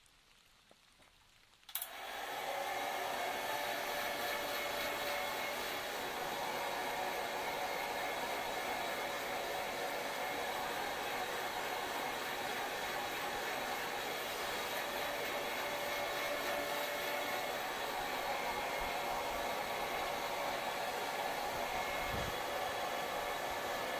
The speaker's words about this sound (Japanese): そろそろ髪を乾かしましょうか。評価のいいドライヤーを手に入れまして、使ってみたところ、とってもサラサラになりましたので、持参いたしました。